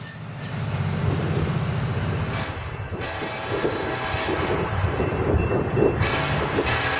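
A train rumbles past in a steady, heavy rolling roar, with a low droning hum running under the first couple of seconds before the noise turns more ragged and clattering.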